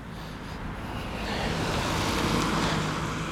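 A car speeds past on a street meant for walking pace, its broad road noise swelling to a peak and then easing slightly, with no voices.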